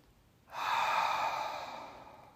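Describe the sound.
One long, deep breath rushes in abruptly, then slowly fades and trails off, alone and fairly loud.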